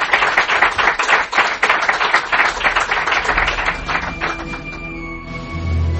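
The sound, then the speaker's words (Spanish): Studio applause for a radio guest: many hands clapping in a dense, rapid patter at a fairly loud, even level, which thins out and dies away after about four seconds. “este aplauso para ti en reconocimiento por todo este año que nos has acompañado.”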